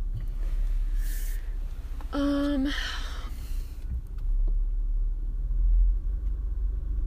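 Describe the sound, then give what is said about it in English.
A car pulls into a driveway with a low engine rumble running throughout, swelling slightly louder toward the end. “I'm trying to pull into my driveway and not drive on something or hit hit the gate with my side mirror, but that's what I did.”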